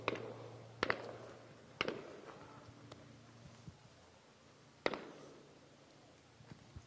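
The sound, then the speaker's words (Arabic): Several live gunshots ring out, fired toward young men, each a sharp loud crack with a brief decaying tail, spaced irregularly with fainter pops between. “في هذه الأثناء نسمع عدة طلقات حي باتجاه شبان نراهم أمام أعيننا في هذه المنطقة.”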